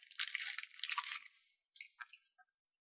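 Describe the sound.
A person bites into food with a crisp crunch, then several brittle crunches of chewing. After a short pause, a few fainter, separate chewing crunches follow.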